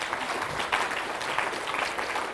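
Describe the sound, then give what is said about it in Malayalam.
Church audience clapping their hands in praise, brisk and continuous applause with many overlapping claps at a moderate, even level. “നമുക്കത് കൈയടിച്ച് കർത്താവിനെ മാറ്റപ്പെടുത്താം.”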